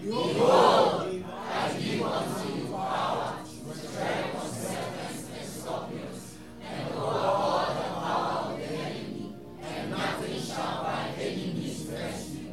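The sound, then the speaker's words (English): An audience shouts a Bible verse, Luke 10:19, aloud together: a loud, dense mass of many voices in rhythmic phrases, with brief dips between them, sustained across the whole clip. “Read it as loud as possible for the person sleeping beside you to wake up. 1, 2, shout it, let's go.”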